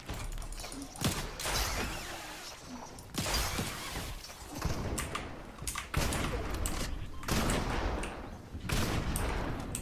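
Gunfire from a weapon in the video game Fortnite: many sharp, loud shots arrive in repeated bursts with brief gaps between them, punchy and cracking, with a few mechanical clicks.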